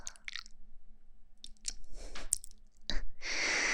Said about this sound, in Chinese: 说话的时候要离近了一点，可能呼吸吹到你的耳朵了